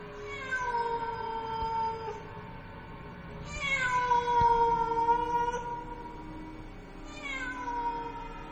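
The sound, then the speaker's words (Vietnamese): A cat meows mournfully at night: three long, drawn-out wails with wavering pitch, each sagging toward its end and separated by short pauses. “Trong màn đêm, lẫn trong cái tiếng mèo kêu ai oán”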